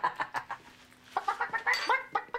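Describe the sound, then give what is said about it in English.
A person imitates a chicken clucking: a quick run of short, nasal clucks, a brief pause, then a longer, louder string of choppy clucks. “If you start clucking like a chicken, I'll give you your keys back.”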